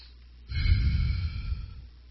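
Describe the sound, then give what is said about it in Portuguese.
One deep breath is drawn and slowly released as a soft, breathy rush lasting over a second, heard alone without talking. “Respira fundo.”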